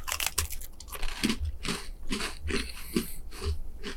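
Crisp crunching and chewing of a ginger biscuit: many sharp bites and crumbly crunches repeat at a fairly steady rhythm, loud and close, with no talk over them.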